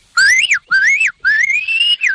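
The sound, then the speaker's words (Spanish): A shepherd whistles to call sheep to come, giving four loud, shrill notes alone: two short rising-then-falling calls, a longer steady note, and a brief falling tag. “Mira, por ejemplo, si quiero que vengan, pues les silbaría así.”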